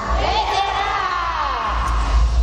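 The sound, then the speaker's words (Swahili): A church audience ululates in celebration, high warbling trills rising over crowd cheering and voices, with low rumbling underneath. “Vigelegele vya shangwe kwa baba. Dirisha vigelegele.”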